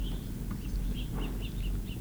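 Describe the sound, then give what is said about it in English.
Faint, short high chirps from three acorn woodpeckers, one of them a young bird being fed, repeated many times in quick succession over a low, steady background rumble. “Acorn woodpeckers, three of them.”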